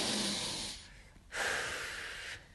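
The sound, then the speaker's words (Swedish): Deep breathing, in and out: two long, airy breaths, each lasting about a second, separated by a short pause. The breaths are soft and steady, with no talk. “Nej, nu får du ta några djupa andetag. Och så får du reflektera över, ta tre djupa andetag nu.”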